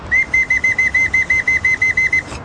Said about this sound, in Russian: Все команды исполняются бегом по сигналу вот такой боцманской дудки.